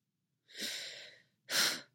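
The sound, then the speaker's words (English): A person takes one deep breath: a long, steady, breathy inhale of nearly a second, a short pause, then a shorter, stronger exhale. No one speaks. “Stas took a deep breath, reaching into the Force for serenity.”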